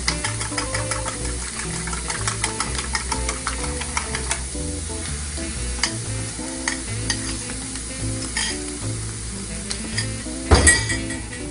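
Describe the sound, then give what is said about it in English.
Eggs are whisked quickly with a fork, giving rapid, steady clinking and scraping against the bowl, with a louder clatter near the end. “So I'm gonna use my fork. Whisk these eggs up real quick.”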